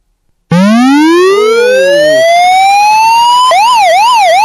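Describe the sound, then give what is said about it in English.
A security siren alarm, triggered through a smart speaker's alarm skill, starts abruptly and very loud. Its electronic tone sweeps steadily upward for about three seconds, then switches to a rapid, repeating warble. “Okay, that's the siren alarm skill being activated.”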